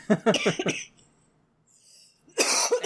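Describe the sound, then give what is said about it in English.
Persistent coughing from someone with a sinus infection and a seed stuck in the throat: a quick run of harsh bursts, a near-silent gap, then another rough burst. “sorry, I've got a persistent cough.”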